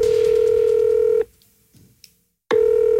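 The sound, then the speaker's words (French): A telephone call being placed: a steady, loud, mid-pitched line tone that stops, then a pause of just over a second, then the same tone returns. “D'ailleurs, on a essayé de joindre avec les équipes d'RMC, j'ai essayé d'appeler Jean-Michel.”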